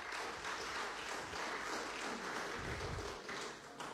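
Applause from a parliamentary assembly: low-level, steady massed clapping that holds an even dense texture for about four seconds, with no voices standing out.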